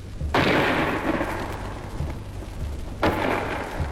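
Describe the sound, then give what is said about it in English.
A 5.5-inch gun fires at point-blank range at a fort wall, then its shell bursts on the wall: two heavy booms about two and a half seconds apart, each trailing off in a long, rumbling decay. “First, a 5.5 gun fired at the wall of the fort for an hour or more at point-blank range, about 250 yards. The first bang you heard was the gun firing, and the second was the shell bursting on the wall.”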